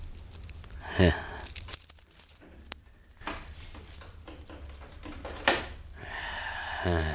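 A key turns in a lock and a door opens, heard as a few short bursts of clicking and creaking separated by quiet stretches, with a final creak near the end.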